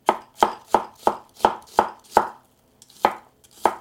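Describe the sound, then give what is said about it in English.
A knife chops Korean gochu peppers in a quick, even rhythm of sharp crisp strikes. A short pause breaks the run before a few more chops follow. “now I'm going to chop up some of these peppers. This is a Korean gochu pepper.”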